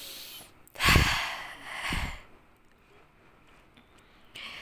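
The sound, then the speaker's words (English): Breath being exhaled while catching breath: two forceful, breathy exhalations, the first louder and longer, followed by near quiet. “I always start with like exhaling my breath because I'm catching breath here.”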